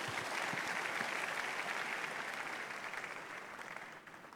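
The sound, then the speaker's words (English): A church audience applauds during a Sunday service, dense and steady clapping from many hands that holds evenly, then thins and fades near the end. “Shout aloud, hallelujah. You are welcome. Put your hands together for the Lord.”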